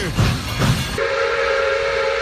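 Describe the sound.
A train whistle sounds as a single steady, sustained mid-pitched tone lasting over a second, preceded by two short, heavy rumbling bursts.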